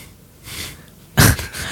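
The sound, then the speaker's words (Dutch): A voice imitates the sneeze of a Mini Cooper car: after a soft breathy lead-in, one sharp, loud sneeze-like burst that fades quickly. “Mini Cooper, hoe niest de Mini Cooper dan?”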